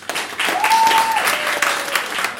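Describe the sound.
An audience welcoming a speaker with loud, sustained applause, many hands clapping in a dense, steady wash from start to finish.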